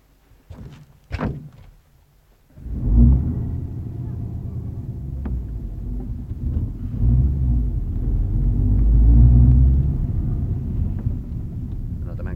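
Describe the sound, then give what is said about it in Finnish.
A car door thuds a couple of times. After a short pause the engine starts, and a low rumble swells and holds steady as the car drives off. “Jos sinä neuvot tietä, niin minä ajan. No mennään vaan.”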